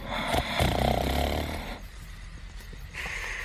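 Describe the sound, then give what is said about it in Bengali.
A sleeping person snores with one long, rasping, buzzing breath, followed by quieter noisy breathing; the whole sound stays fairly faint. “তারপর ওর নাক ডাকা শুরু হলো।”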